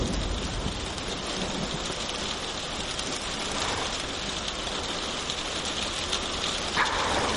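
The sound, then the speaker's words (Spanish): Steady heavy rain hisses through a thunderstorm, with low thunder rumbling beneath the constant downpour; no voices are heard. “Un relámpago ilumina la habitación.”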